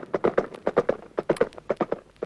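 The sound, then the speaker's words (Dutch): A horse trots up carrying a messenger on its back, with many hoofbeats clopping in a quick, steady rhythm and no voices. “Op zekere dag, toen de vorst al 3 maanden op reis was geweest, kwam er een paard aandraven met een boodschapper op zijn rug.”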